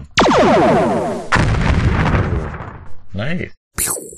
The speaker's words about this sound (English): More small vessels are attempting to leave orbit. A couple of shuttles try to break their way through the orbit and are shot down.